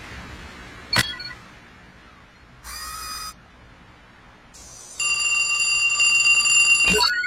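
A telephone rings after a number is dialed on a just-repaired phone: a sharp click, a short electronic tone burst, then a bright, sustained ringing tone, with another click near the end.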